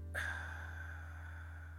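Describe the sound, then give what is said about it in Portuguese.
One deep breath starts with a sudden airy rush and then fades out slowly, heard over a steady low hum. “Vamos respirar fundo.”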